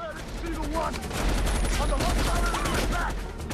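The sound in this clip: Gunfire from a rebel assault force crackles as dense, rapid shots in a continuous volley, with a voice talking over the steady barrage.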